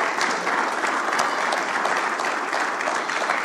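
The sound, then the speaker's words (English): Church audience applause welcoming a guest speaker to the stage, a steady, even wash of many hands clapping throughout with no voices. “Jared Berry, come on up. Yeah, let's welcome Jared.”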